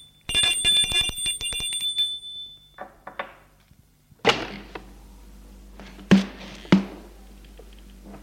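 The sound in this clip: A doorbell rings at a house on the slopes of Fourvière: one bright, continuous ring of about two seconds. A few dull clunks follow later in otherwise quiet surroundings.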